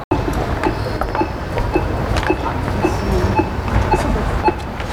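A metronome ticks out the pace for a walking exercise session, marking the line between walking and running. Many evenly spaced, quick ticks repeat over a dense, steady background noise.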